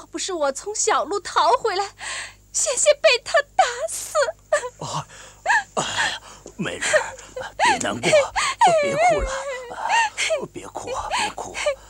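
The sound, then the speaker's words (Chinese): A woman crying in a dramatized scene, loud wailing and whimpering sobs in many broken bursts with wavering, sliding pitch, continuing throughout. “别难过，别哭了，别哭，别哭。”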